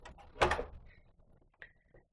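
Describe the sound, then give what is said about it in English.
A door being opened into a committal room where coffins are taken: one loud clunk of the handle or latch, then a couple of faint clicks. “we're just going through a door, and we're just going to open another door, which takes us into the committal room.”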